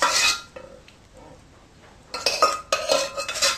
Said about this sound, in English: We'll now dish it out to serve.